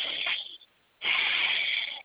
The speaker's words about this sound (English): So 5 powerful breaths.